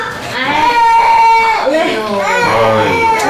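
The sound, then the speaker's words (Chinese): Young children cry loudly and steadily, their overlapping wails holding long, wavering notes with no pause. “这大老远的听着他们在这哭，要不知道的还以为你们这是托儿所呢。 都哭了一早晨去了”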